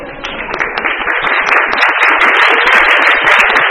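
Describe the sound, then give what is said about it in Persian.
An audience applauds itself with dense, loud clapping from many hands, sustained and steady from start to finish. “حالا ببینم برای خودتونم میتونید دست بزنید.”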